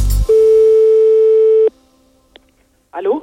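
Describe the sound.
A telephone tone after the line is hung up: one loud, steady, even tone held for over a second, cut off by a click, then a faint tap and a brief voice at the very end.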